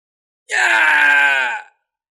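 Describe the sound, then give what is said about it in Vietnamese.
A human cultivator caught amid a stampeding horde of beasts screams in agony: one loud, sustained, harmonic cry of about a second, starting abruptly and tailing off, alone against silence. “Truyền đến tiếng kêu thét thảm thiết của tu sĩ nhân loại”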